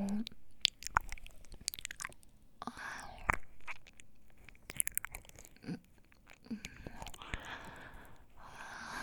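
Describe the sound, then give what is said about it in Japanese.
Soft, wet mouth sounds of someone miming eating the listener's ear: many irregular licks, smacks and chewing-like clicks, mixed with breathy whispering, all quiet and close. “耳、お客様の耳、おいしいです。”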